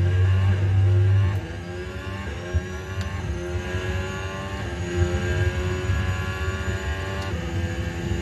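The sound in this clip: Racing car engine in a Formula 1 video game, a sustained, continuous high whine with layered harmonics and a low rumble, heard alone without talk.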